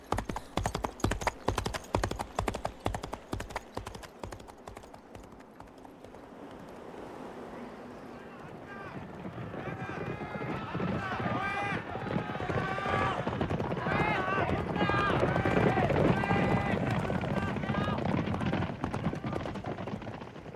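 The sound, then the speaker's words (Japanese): Horses gallop with ridden hoofbeats, a fast, loud, rhythmic clatter for the first six seconds. The hoofbeats then fade as voices and sustained tonal sounds build and take over. “エゴロワおばさんと僕は馬に乗り、アルフォンの元へと走った。”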